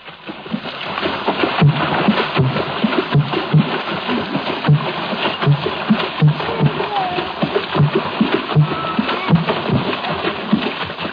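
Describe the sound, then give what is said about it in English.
Gabon water drumming, with hands slapping the water's surface to make deep, hollow bass thumps in a steady rhythmic pulse. Many beats repeat over a splashing, churning background. “that bass effect, in the Gabon water drumming offers a parallel to the trombone of primitive jazz”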